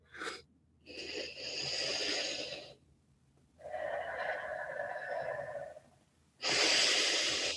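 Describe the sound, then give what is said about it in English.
A person takes slow, deep breaths, with long rushing inhales and exhales separated by short silences. The final breath is loudest and the breathing is alone, with no talk. “I want you to take 4 energizing breaths, like deep, deep, deep breaths.”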